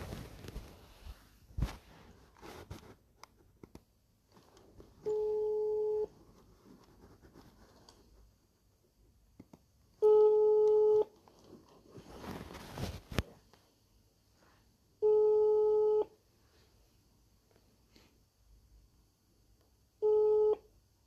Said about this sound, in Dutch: En ik heb heel veel vragen voor haar en die vragen die ga ik haar telefonisch stellen. Dus ik ga haar nu bellen.